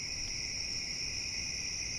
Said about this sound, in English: When the bugs are singing like this, you really don't notice it